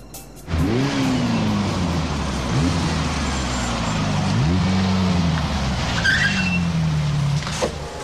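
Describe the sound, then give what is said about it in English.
A Ferrari engine revving as the car drives into a warehouse in Detroit, its pitch climbing repeatedly through several gear changes, with tire squeal mixed in. “In Detroit, Axel drives his Ferrari into a warehouse.”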